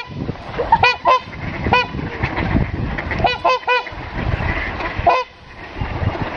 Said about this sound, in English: And here's a sample of a trumpeter swan, not an angry trumpeter swan, just a normal one.